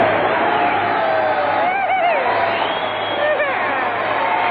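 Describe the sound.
Studio audience applause and cheering: a dense, steady wash of clapping and crowd noise that fills the whole stretch, with a few voices calling out over it.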